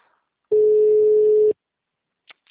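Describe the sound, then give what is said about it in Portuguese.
A telephone busy signal: one steady mid-pitched beep lasting about a second, followed by silence and a couple of faint clicks. “Ó, nem atende, ó. O número está ocupado.”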